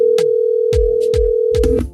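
A telephone is dialed over a steady, humming dial tone, with a few clicking key presses cutting in at uneven intervals before the tone abruptly stops near the end.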